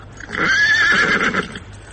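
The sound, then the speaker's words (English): A vixenish little mare whinnies in a snowstorm, one loud, strained neigh with a high, wavering tone that holds for about a second before it breaks off, followed by a few soft, fading snorts. “It was a vixenish little mare, but she and Tom knew each other, so she kept going until a heavy fall of snow and a mighty gust of wind brought her to a standstill.”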